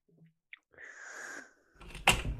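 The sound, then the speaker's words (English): A deep inhalation through an albuterol inhaler: a faint, airy hiss that lasts under a second and is followed by a brief, louder breathy burst. No one speaks. “if you could just put that albuterol inhaler right to your mouth and just inhale as deeply as possible.”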